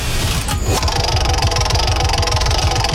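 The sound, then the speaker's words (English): A prize wheel spins with a fast, even run of rapid ticks that continues through the whole clip, with a short burst of noise near the start. “So, shall we just spin the wheel and find out what question it is?”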